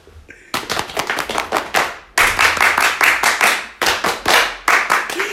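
Audience applause in several dense bursts of hand claps, broken by brief pauses, loud and crisp with no voices standing out above the clapping.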